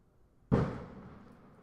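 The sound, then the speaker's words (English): A firecracker going off outdoors in the suburbs: a single sharp bang with a short decaying tail, fairly faint against quiet background noise. “you guys just heard a firecracker go off, and a firework of some kind.”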